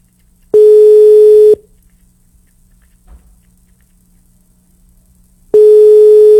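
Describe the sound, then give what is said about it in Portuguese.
An unanswered telephone call rings back with a steady mid-pitched tone. It sounds twice, each burst lasting about a second, with roughly four seconds of near silence between them. “Pode ligar. Atenda, atenda. Tá chamando, hein?”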